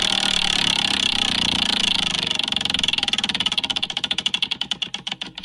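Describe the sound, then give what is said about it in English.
Clicking of a spinning prize wheel: a rapid, dense clatter that gradually slows into distinct ticks, spacing out further toward the end as the wheel coasts to a stop, with no voices. “Right, are you ready for the Wheel of Destiny? Yes, I'm ready for the Wheel of Destiny. Right. Okay, you ready for me to spin?”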